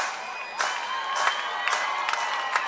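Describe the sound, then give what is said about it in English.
Sparse clapping from the few remaining fans at a baseball game, scattered claps rising over a steady murmur of crowd noise, without a building cheer. “so the few fans that remain get the clapping going.”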